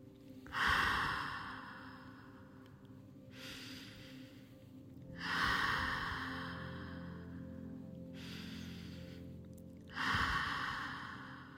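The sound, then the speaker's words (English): Slow, deep breathing with long inhales and exhales: three louder breath swells alternate with softer, hissing ones, all faint and carried over a quiet, steady low drone. “take a deep breath. A long inhale through your nose and a long, deep exhale through your mouth.”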